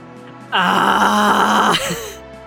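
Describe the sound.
A voice imitates a panting tiger with one long, loud, groaning breath that holds steady and then tails off.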